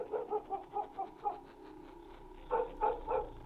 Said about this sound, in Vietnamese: con chó mực xích ở dưới bếp lại một lần nữa sủa lên nhấm nha nhấm nhằng.